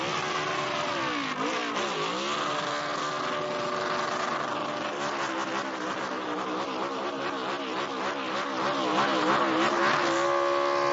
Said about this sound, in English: Now, this is how you do a burnout.